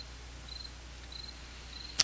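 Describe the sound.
Crickets chirping at night, faint high thin trills coming in a few short bursts over a quiet steady hiss, with one sharp click near the end.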